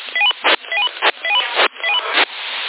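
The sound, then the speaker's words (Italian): Electronic dialing tones for a call to a mobile phone, carried over a PMR446 walkie-talkie channel: four loud runs of quick stepped beeps, each ending in a short burst of hiss, with a thin, narrow-band sound. “Ok, lo chiamo al cellulare.”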